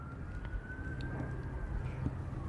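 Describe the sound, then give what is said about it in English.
A siren wails faintly beneath steady low background noise, one sustained tone that drifts slightly up and then back down. “I don't know what you're going to do with all the sirens in the background.”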